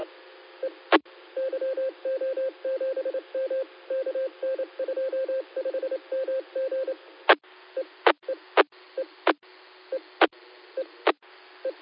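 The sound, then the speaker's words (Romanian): A mobile phone call being dialed: a rapid train of short electronic tone pulses runs for several seconds, then several sharp clicks follow, spaced roughly a second apart. “Atunci o să-l sun eu pe mobil.”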